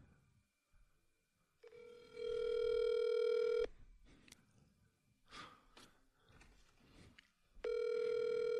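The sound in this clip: Ringback tone from an outgoing telephone call: two long, steady ringing tones separated by a quiet pause with faint rustling sounds, the second ring cut off at the end.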